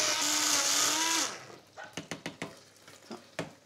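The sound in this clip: A blender whirs through butter and white wine, its loud motor whine holding steady for about a second before cutting off, followed by a series of sharp clicks and knocks.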